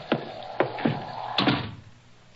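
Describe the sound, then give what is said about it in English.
A door is unbarred and opened: a few sharp wooden knocks and clunks follow one another over about two seconds, each with a brief scraping tail, then a final knock at the very end. “One moment, gentlemen, I'll unbar the door. Oh, be pleased to enter.”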